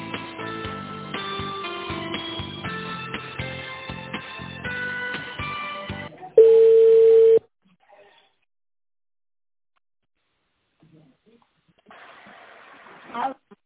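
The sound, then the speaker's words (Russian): During a telephone call transfer, melodic hold music plays, then stops and a single steady ringing tone sounds for about a second. Near-silence follows before a short burst of noise at the end. “Да, секундочку, со Светланой сейчас вас соединю.”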